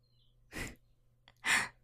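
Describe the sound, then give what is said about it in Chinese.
Heavy breathing from a person: two loud, breathy exhalations like sighs, each about a quarter second long and separated by nearly a second of quiet, over a faint low hum. “你的呼吸怎么这么重啊？”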